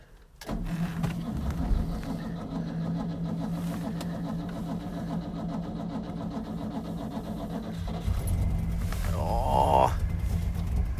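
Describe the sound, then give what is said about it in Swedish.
A car engine starts after standing outside overnight at minus 20 degrees, with the choke pulled out. It catches abruptly and settles into a steady, rough, loud running sound that swells slightly toward the end. “Och nu har bilen stått ute i natt. Det är minus 20 grader. Vi ska se om den startar.”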